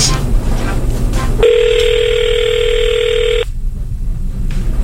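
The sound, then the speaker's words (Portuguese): A telephone ringing out on a redialled call, a single steady electronic ring tone lasting about two seconds that starts and stops abruptly over a low background. “Ligando de novo.”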